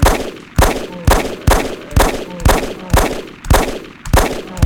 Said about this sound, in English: number two is your Glock 19, which takes 9mm ammo and sounds like this when fired. So it sounds like a pistol, I guess.